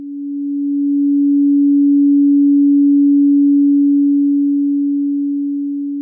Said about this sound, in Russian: Основная частота звука в среднем 284 Гц. Вот чистый тон с этой частотой.